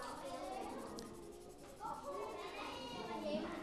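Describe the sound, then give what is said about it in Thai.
Soft scratching of colouring strokes on paper as yellow is filled in, a faint, steady back-and-forth rubbing texture with a voice murmuring in the background. “ก็ระบายสีเหลืองไปเลยสีเหลืองสีเหลืองนี่ง่ายเพราะสีเหลืองมันอ่อนอยู่แล้วใช่ไหมระวังอย่าให้มันออกขอบ”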